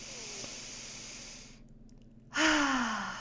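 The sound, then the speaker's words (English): A deep breath taken slowly: soft airy breathing, a brief hush, then a loud breathy exhale with a voiced sigh that slides downward in pitch and trails off. “I just want to invite you to take a big deep breath with me.”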